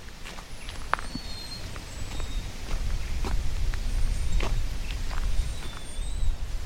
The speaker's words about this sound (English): we'll start off with a walk down the wilderness walk.